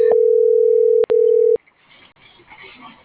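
Telephone ringback tone on an unanswered call: a loud, steady single-pitch electronic tone with one brief break, cutting off after about a second and a half. Quieter muffled sound follows.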